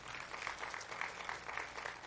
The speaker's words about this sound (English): Give Jesus a hand clap of praise.